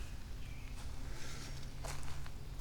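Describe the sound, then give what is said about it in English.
Soft footsteps crunch through sand while someone walks upstream along a stream bank, a few muffled steps against a steady outdoor hiss. “I'm kind of walking upstream here in the sand, pausing once in a while to look up onto the bank here to see if it has caught any golf balls.”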